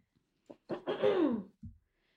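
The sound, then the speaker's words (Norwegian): Someone clears their throat. A few short, rough bursts lead into a longer, harsh voiced rasp that slides downward in pitch, followed by a brief final grunt. No talk is heard. “Sorry, den halsen vi... min også. Jeg driver og harker ja.”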